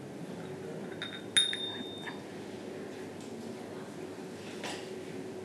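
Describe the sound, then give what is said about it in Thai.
Ching, small Thai hand cymbals, are struck: one bright metallic ring with a high shimmer that fades over about a second, with a few softer clinks around it over a steady background hiss. “เวลาตีนะคะตีลงไปตรงๆลองตีค่ะชิงจะตีแค่ครึ่งเดียวแบบนี้นะคะแล้วก็ฉับนะคะชิง”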